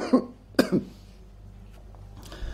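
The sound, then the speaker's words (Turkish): A person ill for a week coughs a few times, harsh bursts including a quick double cough near the start, then a faint throat sound at the end, alone and without speech. “hastalığım geçmedi bir haftadan beri. Bu akşam birkaç defa öksürmeler olabilir.”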